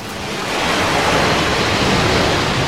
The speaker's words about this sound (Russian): Призрака смывает волнами в сторону.